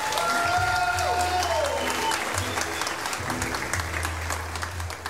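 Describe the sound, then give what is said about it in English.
Audience applause welcoming a fiddle player at a live show: steady, dense clapping from a crowd that carries on throughout. “If you would, put your hands together and make this lady welcome.”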